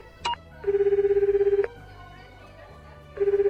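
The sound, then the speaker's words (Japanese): Ringback tone of an outgoing phone call to a father: a pulsing buzz in two bursts, the first about a second long and the second cut off at the end, preceded by a brief high beep. “そっか、電話してみようっと。”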